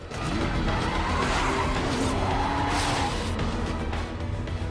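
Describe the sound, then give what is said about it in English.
Tires squeal and skid as cars swerve through traffic in a chase onto the opposite lanes of a road. Engines roar loud and unbroken underneath, and the screeching rises and falls across the whole run. “Ford rides up a ramp and shoots onto the opposite lanes. Asshole! Hello. Hang up again. Trey follows Ford over, swerving between cars.”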